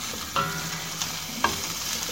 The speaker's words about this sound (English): The broccoli is cooking.